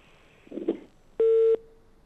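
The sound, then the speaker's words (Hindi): A single short busy-tone beep sounds on a phone line after a dropped call: a steady, mid-pitched electronic tone, preceded by a faint crackle. “ये call हमारी drop हो गई।”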